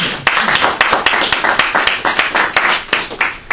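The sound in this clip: Audience applause welcoming a speaker at an LSE event on Morocco, a dense, steady burst of many overlapping hand claps at an even, fairly loud level throughout, with no talking over it.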